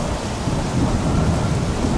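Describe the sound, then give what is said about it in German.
Heavy thunderstorm with continuous, dense rain hiss and a low rumbling of thunder throughout, loud and without voices. “Und als Jesus ins Boot kommt, hört plötzlich aller Regen auf, aller Sturm hört auf.”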